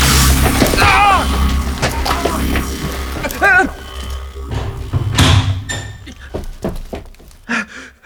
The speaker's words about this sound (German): Die Bodenluke wurde verriegelt.